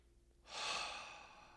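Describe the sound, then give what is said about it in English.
A single deep breath during a breathwork exercise: after a moment of quiet, a soft, airy rush of air swells in and then slowly tapers off. “And then you can start to maybe speed that breath up just slightly, one breath at a time.”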